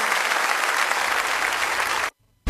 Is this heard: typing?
no